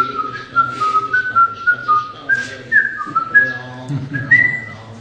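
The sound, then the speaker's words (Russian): A man whistles a tune on the streets to passers-by while his voice is lost: a loud, clear melody of many short notes moving up and down in pitch, heard alone without talk. “И он так же точно столько же книг распространил, просто насвистывая людям.”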